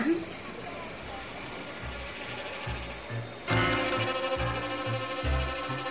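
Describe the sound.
A train at a railway station gives a steady low rumble with rhythmic heavy thumps, growing louder and busier partway through.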